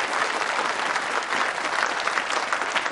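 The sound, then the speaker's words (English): Crowd applause: dense, continuous clapping from many people, holding at an even, fairly loud level throughout, with no distinct voices on top. “Who's clapping for? We clapping for you!”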